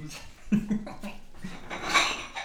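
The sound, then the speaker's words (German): A plate is set down on a table during a meal, giving a brief clatter of crockery with a few light knocks and scrapes over a faint background. “Ach, er stellt sich plötzlich auch einen Teller hin.”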